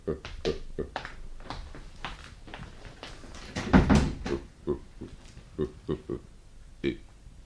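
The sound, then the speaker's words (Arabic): A door is shut midway with a dull, heavy thud, amid people talking before and after it. “طيب اخرج انت وقفل الباب علينا.”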